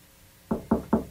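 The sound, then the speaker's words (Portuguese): Three firm knocks at a studio door, evenly spaced and loud after a quiet moment. “Esse cara aí batendo no estúdio, hein?”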